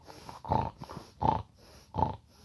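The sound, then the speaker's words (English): A voice imitates a flat-faced dog's loud, laboured breathing: three rough, snuffling snorts in an even rhythm, separated by quieter breaths. “this fucking dog would be doing that fucking horrendous fucking breathing there”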